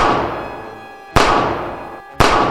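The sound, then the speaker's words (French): Gunfire sound effects play during a tabletop role-playing game. Two sharp, loud blasts each trail off into a long, fading tail, and the tail of an earlier shot dies away at the start. Nobody talks. “Pendant ce temps, derrière, ça vous tire dessus, les amis.”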